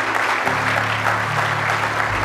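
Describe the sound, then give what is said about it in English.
An audience claps hands in praise during a morning church service, a dense, loud patter of many hands over sustained low instrumental tones that shift to new notes partway through. “Give Him a good hand clap of praise this morning.”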